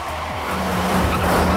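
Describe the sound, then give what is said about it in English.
Tires squeal as a car speeds through a stop sign amid traffic, a short sustained screech over engine noise that grows slightly louder toward the end. “The car speeds through a stop sign, leaving a tangle of traffic in its wake.”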